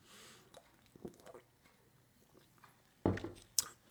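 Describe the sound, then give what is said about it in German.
Someone takes a sip of a drink: faint, soft slurping and liquid sounds, then two sharper clicks close together near the end. “warte mal, muss ich noch einen Schluck trinken.”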